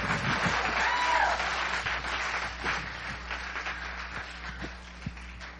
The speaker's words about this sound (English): Come on. I want you to put your hand together.